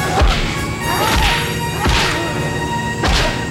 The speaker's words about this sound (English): And we get those percussive punches again.